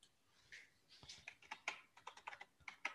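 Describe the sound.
Keys clatter on a computer keyboard as someone types a search term, with many quick, uneven clicks in short bursts, fairly faint and with no talking.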